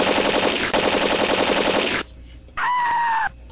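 A loud gunfire sound effect: one rapid, continuous machine-gun burst lasts about two seconds, then cuts off into a brief quieter stretch followed by a short tonal sound.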